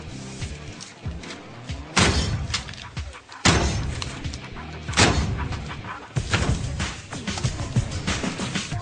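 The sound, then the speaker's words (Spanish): Heavy thuds of oranges being struck to make juice: several loud, blunt blows rise out of a dense, rumbling clatter that runs throughout. “¿Te importaría golpear más esas naranjas? Son para zumo.”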